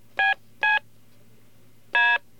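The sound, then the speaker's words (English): Three telephone keypad DTMF tones from the extra fourth column of keys, played in descending order: two short, evenly spaced beeps, then a longer third beep after a pause. A faint low hum runs underneath. “if you had an extra row of keys on your phone, one to the right of the 3, to the right of the 6, to the right of the 9, to the right of the pound sign, they would sound like this, in descending order.”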